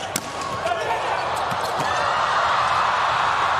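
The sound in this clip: Table tennis ball ticking sharply during a serve down the line in a match, a few crisp bounces over a steady, busy crowd background.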